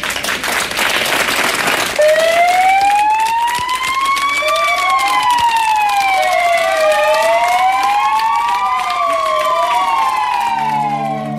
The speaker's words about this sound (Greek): Βάλαν και τις σιρήνες εκεί, τα πυροσβεστικά οχήματα, ανάβαν και οι φάροι.